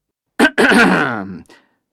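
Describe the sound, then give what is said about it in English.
A professor coughs once: a short, harsh burst, then a longer voiced throat-clearing rasp that fades out. “The prof coughs.”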